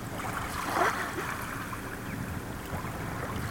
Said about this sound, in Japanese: すごいいい音、この波の音、ね、聞こえますか、この波の音、 鳥の鳴き声と